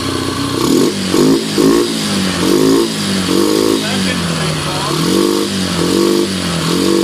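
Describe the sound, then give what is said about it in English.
A very tiny internal combustion engine running with a buzzing, wavering drone, its pitch rising and falling in repeated rhythmic surges as it revs throughout, loud and continuous. “My God, that's the sound of a very tiny internal combustion engine.”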